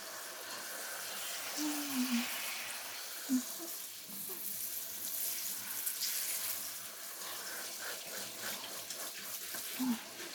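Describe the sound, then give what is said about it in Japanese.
Hot water runs steadily from a tap, rinsing shampoo from someone's hair in a constant soft hiss, with a few faint brief tones in the background. “じゃあ、お湯で流してくわね。”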